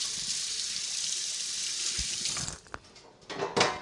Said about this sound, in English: And then rinse the oil off your hands again.